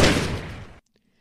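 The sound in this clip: A hunting rifle fires one loud shot at a bull moose among spruce trees. The booming crack decays over a long tail, then cuts to silence.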